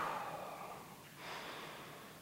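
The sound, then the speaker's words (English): A church audience draws a breath together, a faint, soft breathy hiss that fades and then swells again, with no talking. “In fact, let's all just take a breath right now.”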